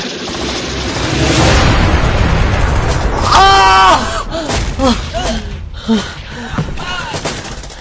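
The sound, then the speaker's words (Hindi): A rocket launcher fires and explodes in a dramatized battle scene of soldiers defending UN headquarters against an advancing enemy, with loud, sustained booming rumble and sharp blasts, and voices heard mid-clip. “ये लो ये rocket launcher ठीक है सीधा उस पर हमला करो”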